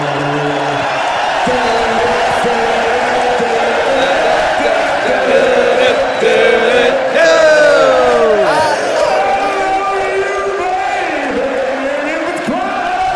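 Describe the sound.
A crowd sings along and cheers, a loud, continuous blend of many voices with whoops and shouts rising over the massed singing.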